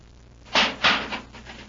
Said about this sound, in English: there's the warning light, sir. He's in the airlock. Open the inner hatch.